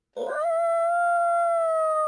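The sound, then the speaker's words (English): A single coyote howl during mating season. It starts abruptly, lifts slightly at the onset, then holds a long, steady, high-pitched tone that stands alone against silence. “it is officially coyote mating season. So, be on the alert of, if you hear this when you're outside with your puppies and your kitties, or maybe your kids,”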